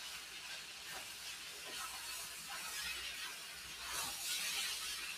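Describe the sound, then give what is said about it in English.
Faint sizzling as eggs are tossed with vegetables in a frying pan, a soft continuous hiss with a few brief swells of scraping. “Eggs getting tossed around, kind of distributed through.”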